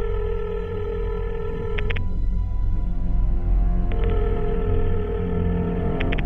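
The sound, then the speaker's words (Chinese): A landline telephone rings after a number is dialled: two long, steady buzzing tones separated by a silent gap, over a low background hum. “就喺踏正半夜十二点，明仔攞起听筒打咗呢个电话。”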